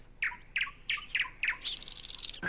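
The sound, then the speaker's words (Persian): Bird singing in a tree: five bright chirping notes repeat in an even rhythm, then a quicker run of high, fluttering notes follows. “مثلا صدایی که میشنویم به ما میگه که توی اون درخت یه پرنده داره آواز میخونه”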